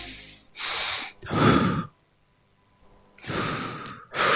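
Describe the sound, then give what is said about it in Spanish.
Slow breaths through the nose during a guided breathing exercise: a few airy inhale and exhale bursts, with a quiet pause between them and no talk. “Y exhala lentamente por la nariz. Así.”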